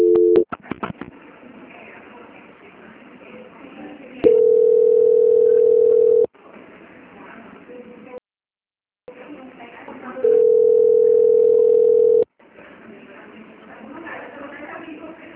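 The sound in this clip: Telephone line tones during a call transfer: a few short beeps at the start, then two long, steady, mid-pitched tones of about two seconds each, separated by stretches of hissy line noise and a brief silence.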